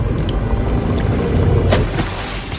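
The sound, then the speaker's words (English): Fishing net dropped from a boat into the water: a loud, steady rumbling wash of churning water, with a brief brighter splash partway through. “Drop the net!”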